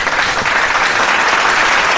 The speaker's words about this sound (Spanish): Pausa, aplauso del público.